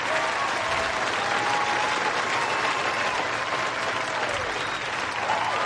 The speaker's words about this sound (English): You want to put your hands together in true sportsmanship to congratulate him.